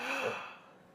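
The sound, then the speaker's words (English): A patient draws one deep breath during a medical examination: a single faint, brief inhale with a slightly voiced, gasping edge that fades away within a second. “A deep breath, please, just once.”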